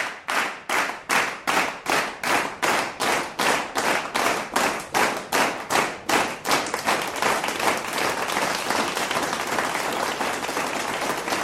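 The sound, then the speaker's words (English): An audience claps for a guest being welcomed onto a show, starting as loud, steady rhythmic clapping in unison and then dissolving into continuous, even applause for the last few seconds. “All right, let's give her and clap.”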